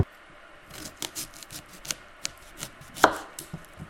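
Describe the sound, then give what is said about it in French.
A knife slices vegetables into pieces with many quick, sharp strokes, irregular and fairly faint, with one louder cut near the end and no talking. “J'ai coupé en tranches et après on les coupera beaucoup plus fin.”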